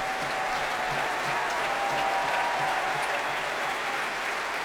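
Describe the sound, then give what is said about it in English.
Audience applause at a Proms classical concert as the conductor returns to the platform: a sustained, even wash of many hands clapping at steady loudness from start to finish. “The audience, as always in the traditional proms way, greeting Marius Janssens as he returns to the platform.”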